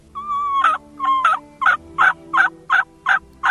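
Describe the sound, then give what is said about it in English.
Turkey yelps made on a mouth call: a quick run of sharp, evenly spaced notes, the first two longer with a clear high-to-low break, the rest short and clipped, loud and alone. “That's your basic yelp. You learn to yelp on a mouth call like that”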